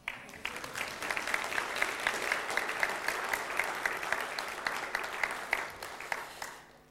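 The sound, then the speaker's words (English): Audience applause in a church after thanks to a worship leader: dense, steady clapping from many hands that starts sharply, holds loud throughout and fades at the end. “So, you can clap if you want.”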